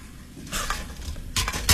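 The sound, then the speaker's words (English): Cooking pots are handled and shifted about, giving a few clattering knocks and scrapes. The loudest knock comes at the end, with no voices. “These are my pots, right? I'll leave you this one. That way you can cook your ramen noodles tonight.”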